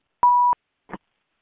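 A phone line beeps once while dialing in to a call: a steady mid-pitched electronic tone lasting about a third of a second, followed by a faint, brief click on the line.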